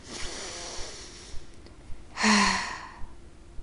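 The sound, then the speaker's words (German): A single deep breath from a nervous man, one long, audible sighing exhale standing alone about two-thirds of the way through, preceded by a few faint clicks and quiet breathing. “Ich werde es trotzdem tun, ich atme tief durch.”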